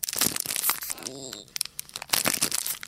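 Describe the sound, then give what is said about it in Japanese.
Crinkling and tearing of a plastic wrapper as an individually wrapped item is opened, with a run of dense, crackly rustles that pause briefly partway through and then resume. “そこからまた、こういう感じですね。これも開けていきたいと思います。”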